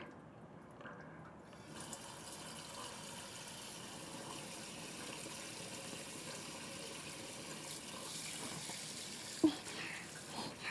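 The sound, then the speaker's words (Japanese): Hot water rinsing off a person, a steady rushing splash that runs unbroken and fairly evenly throughout, with one brief sharp tap near the end and no talking. “これもお湯で流しちゃいますね。”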